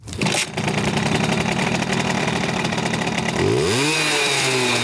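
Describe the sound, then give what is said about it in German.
A Simson moped engine, the cult two-wheeler, runs with a loud, steady buzzing drone and then revs up sharply near the end. “So hört sich das Kultmoped an.”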